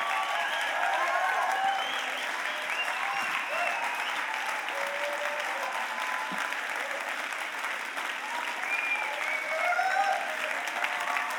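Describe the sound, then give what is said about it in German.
Audience applause as a standing audience welcomes the preacher: a dense, steady wash of clapping that holds at an even loudness for over ten seconds, with a few voices mixed in. “lass uns aufstehen, ihn mit einem Riesenapplaus begrüßen”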